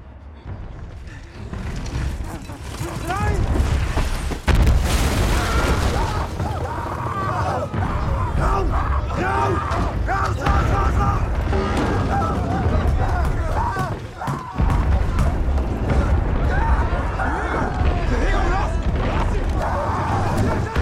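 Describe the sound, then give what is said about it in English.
Artillery shells burst around soldiers sheltering in a trench under a creeping barrage in a First World War film battle scene: a dense, continuous roar of booms and crashes, with heavy blasts near the start and again two-thirds through, and voices heard amid the din. “That scene depicts the main character, Paul, and his soldiers taking shelter in a trench from a creeping barrage.”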